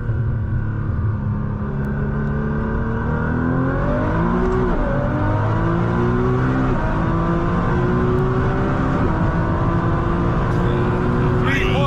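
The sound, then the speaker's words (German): A Toyota Supra with a huge turbo accelerates hard in second gear on an unrestricted road, its loud engine note climbing steadily in pitch and holding a strained, roaring tone throughout. “Um, we have to see how much wheel spin we will get. Yes, that's how powerful this car is. Okay. Second gear.”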